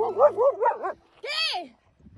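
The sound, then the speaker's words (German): A dog, out on a walk with a woman in Wietzendorf, Lower Saxony, gives wavering, whining cries and then one sharp, high yelp. A short pause separates the two, and the yelp is followed by faint noise. “Sie hören hier eine Frau im niedersächsischen Wietzendorf. Und die ist mit ihrem Hund unterwegs”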